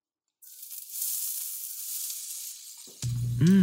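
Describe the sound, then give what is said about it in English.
Onions and garlic land in olive oil in a pan on a stove at medium heat, raising a steady hissing sizzle after a brief silence; near the end a louder low hum joins the frying. “I added some olive oil. I'm throwing in the onions and garlic right now.”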